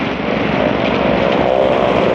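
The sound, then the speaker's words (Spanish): A motorboat engine drones loudly and steadily, a dense buzzing rumble that holds at an even level throughout. “¿Qué es eso? ¿Oh? Otra lancha.”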